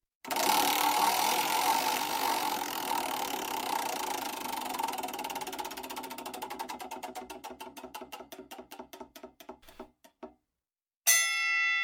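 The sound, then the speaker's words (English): A prize wheel spins and clicks. A fast, blurred rattle slows into distinct ticks that grow further and further apart until the wheel stops. After a short silence, a brief ringing tone sounds. “let me spin the wheel here.”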